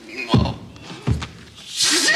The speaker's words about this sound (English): Stop banging your head. You're going to bang your fucking hole in the floor.